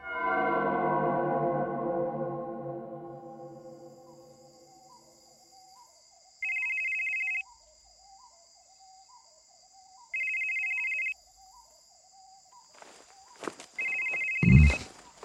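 A phone rings with an incoming call at dawn: three short electronic ringtone bursts, evenly spaced over a faint steady tone, with a brief clatter of movement just before the last ring.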